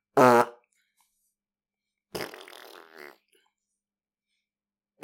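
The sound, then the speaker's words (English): A voice imitates a fart with the mouth: a short, loud, buzzing raspberry with a rough, rattling tone, then silence before a longer voiced sound. “making fart noises with their mouth.”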